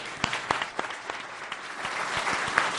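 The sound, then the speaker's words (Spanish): Audience applause for a music group at a live event. It starts as scattered, distinct sharp claps that thicken into steady, dense clapping and grows slightly louder toward the end. “Vamos a dar un aplauso”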